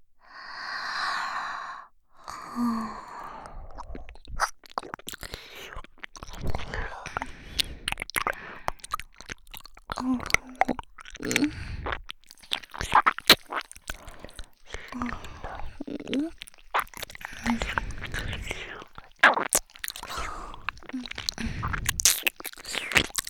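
Chewing and crunching of food, with many small crisp bites and mouth noises in an uneven rhythm throughout, steady and fairly close.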